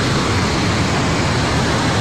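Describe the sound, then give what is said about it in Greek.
Roaring torrent of a glacial flood of water, mud and ice at a hydroelectric dam construction site in Rasuwa, Nepal, a loud, dense, unbroken rush of noise with no pauses. “Ένας γιγάντιος χήμαρος από νερό, λάσπη και πάγος αρρώνει τα πάντα στο πέρασμά του.”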